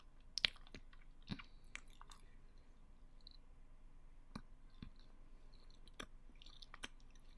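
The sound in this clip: Faint chewing of chocolate, with soft, wet mouth clicks and a few light crunches scattered unevenly. No one talks.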